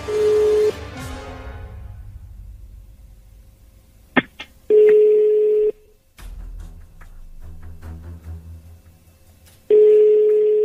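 Ringback tone of an unanswered phone call: three long, steady mid-pitched tone bursts spaced about four seconds apart, with faint clicks and quiet line noise in the gaps.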